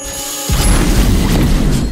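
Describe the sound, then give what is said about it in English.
A robot fires a laser beam: after a short quiet start, a loud, deep booming blast bursts in and rumbles on steadily to the end, with a thin high tone flashing briefly at its onset. “The robot shoots a laser beam and the whole group disappears.”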